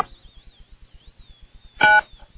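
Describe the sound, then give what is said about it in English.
A touch-tone telephone number is dialed on a call line: rapid, even ticking pulses and a faint wavering high tone run throughout. Near the end comes one clear, louder keypad beep. “I hope I dialed correctly.”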